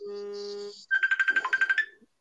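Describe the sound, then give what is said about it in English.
A mobile phone ringtone starts with a steady electronic tone, then breaks into a rapid string of bright, pulsing beeps before stopping. “Well, my phone's going nuts. Go on mute then.”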